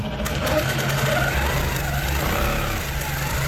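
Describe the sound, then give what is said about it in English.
A quilting machine in a country cottage whirs with a loud, steady mechanical hum, a continuous motor drone that holds level throughout. “In a country cottage in the small town of Nabiak, a quilting machine whirs to life.”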